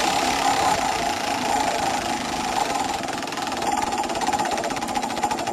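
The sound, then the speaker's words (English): A prize wheel spinning, its clicker ticking in a rapid, continuous clatter that stays loud and steady throughout, with no talking. “let's give the wheel a spin.”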